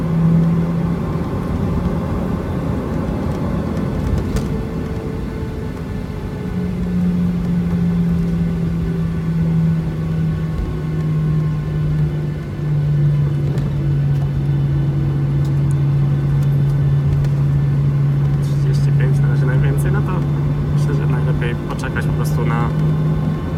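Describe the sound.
A car driving on a road near Berlin-Schönefeld airport: a steady, loud low engine drone with a sustained tonal hum that drifts slightly lower, plus road rumble underneath throughout.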